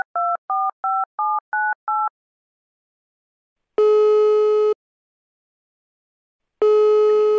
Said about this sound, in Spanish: voy a tratar de llamar, a ver. Pruebe de nuevo a este número